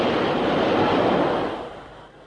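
Rushing wind from a subway train passing beneath, a broad, steady roar that holds loud for about a second and a half, then fades away.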